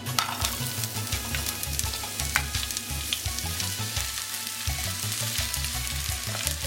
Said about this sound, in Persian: پیازمون رو تفت میدیم، یه مقدار خیلی کمی که رنگ عوض کرد گوشت رو بهش اضافه میکنیم.